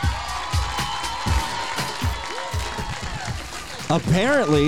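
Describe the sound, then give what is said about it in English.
Crowd applause and cheering greet a guest walking on stage at a live event at Sacred Heart University's DPT program, with clapping and whoops running beneath people talking. “All right, let's put your hands together for our next guest, making her way behind me.”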